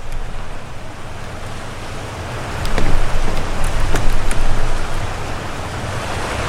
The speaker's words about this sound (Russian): Мне уже страшно от этого звука воды.